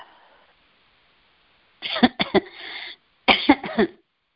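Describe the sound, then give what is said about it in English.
Choking coughs from a person feeling tightness in the throat and larynx: two quick bouts of harsh, clustered coughs, each made of a few rapid bursts, separated by a short silence. “And obviously it's making me choke.”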